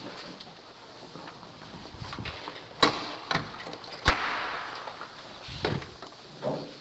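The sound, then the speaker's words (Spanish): A door being closed: two sharp thuds stand out at irregular moments over faint clattering and rustling, with a few softer knocks in between. “Cerró la puerta que no puede entrar el chamuco, ¿no?”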